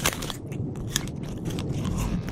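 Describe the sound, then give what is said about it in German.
Biting and chewing a piece of ginger aboard a ship: a steady, crunchy crackle of mastication with a few sharper bite snaps, moderately loud, with no talking. “Hier, isst ein Stück Ingwer. Das hilft gegen Übelkeit auf See.”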